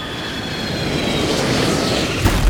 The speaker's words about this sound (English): Hang on, we're coming in for a landing.